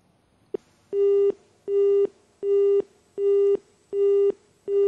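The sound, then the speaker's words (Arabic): A telephone busy signal sounds on a failed call-in to a Quran recitation program: a single click, then six evenly spaced, steady electronic tones, each a short flat beep separated by brief silences. “اتصال فشل نأخذ اتصال آخر”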